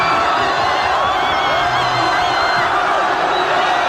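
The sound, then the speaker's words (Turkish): Spanish football fans cheer at the final whistle of a World Cup win. The crowd roar is loud and unbroken, with whoops and shouts mixed through the dense wall of noise. “Bitiş düdüğüyle İspanyol taraftarlar çılgınlar gibi sevindi.”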